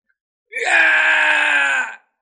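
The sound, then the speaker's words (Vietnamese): A loud, sustained scream that starts abruptly, holds at a steady, strained pitch for about a second and a half, then cuts off sharply into silence. “Vương Đằng cùng hư ảnh kia cùng nhau kêu to.”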